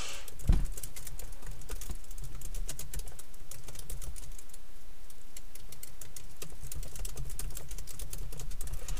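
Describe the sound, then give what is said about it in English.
Computer keyboard typing: many rapid, light clicks and taps in an uneven but steady stream, heard alone with no talking. “Hold on, I have to type it into the doc so I know when I put it in the description.”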